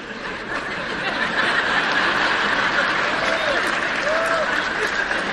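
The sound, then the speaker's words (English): Audience clapping during a talk: a steady, moderately loud patter of many hands that builds slightly after the first second and holds, with faint murmuring in the crowd underneath. “I'm not sure who's clapping on that. If there's a guy clapping, you're in trouble.”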